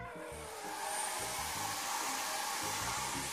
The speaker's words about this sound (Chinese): 头发湿湿的，该感冒了。过来，过来，奶奶给你吹干了啊。